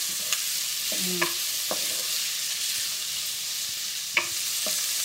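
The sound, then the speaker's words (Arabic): Onions and minced garlic fry and caramelize in a pan with a constant bright sizzling hiss, while a few soft clicks and scrapes of stirring sound over it. No one speaks. “فهنفضل نقلب ثلاث دقايق المفروض يبقوا كفايه عشان نبتدي نشوف اللون البني اللي احنا عايزين نشوفه الكارملايزد اونيونز”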